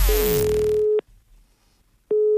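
A telephone ringing tone plays during a prank call: a steady, mid-pitched electronic tone sounds for about a second, falls silent for roughly a second, then starts again.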